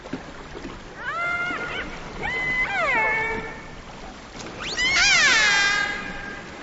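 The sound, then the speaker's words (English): Mammal-eating killer whales call three times. Each call is tonal and harmonic, with pitch that sweeps up and down, over a low background hiss. “This is an example of some mammal-eating killer whales.”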